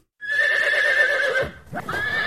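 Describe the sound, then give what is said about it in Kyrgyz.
A horse in the At-Bashy district whinnies loudly, a long quavering neigh on a steady high tone that breaks off briefly and then resumes, with no talk. “Атбашы районунда ушул тапта жылкы көп союлуп жатат.”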